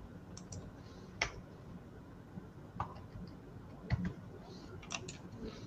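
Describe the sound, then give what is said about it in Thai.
A few faint, sharp mouse clicks, spaced irregularly over a quiet background, made while switching a stock chart to a 15-minute view. “เอ่อระยะสิบห้านะเดี๋ยวผมกดเป็นสิบห้านาทีให้ดู”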